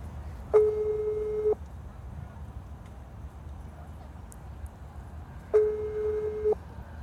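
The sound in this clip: An outgoing telephone call rings with a steady ringback tone: two one-second tone bursts at one fixed pitch, separated by a long pause, over a low, constant background hum.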